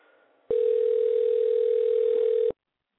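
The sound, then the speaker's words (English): Telephone tone while placing a call: a single steady mid-pitched tone sounds for about two seconds, then cuts off abruptly. Only faint low noise comes before it. “So let's dial her right now.”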